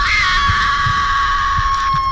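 A person screams in terror, a loud, high shriek held steady for the whole two seconds, with soft low thumps pulsing faintly beneath it.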